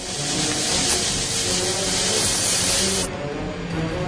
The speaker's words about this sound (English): They've lit the dynamite fuses, which smoke and sizzle.